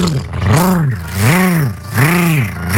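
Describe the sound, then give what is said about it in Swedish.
A voice imitates a lawnmower engine with loud, droning revs in three swells. The pitch of each swell rises and falls in a smooth arc, like an engine repeatedly speeding up and slowing down. “Men alltså min gräsklippare, den låter alltså, det så här. Nu ska jag ge mig i kast med att härma min gräsklippare.”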